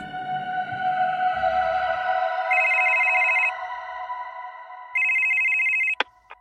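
Telephone ringing for an outgoing call: two bursts of electronic ring tone, each about a second long, over a steady tonal background, then a short click at the end.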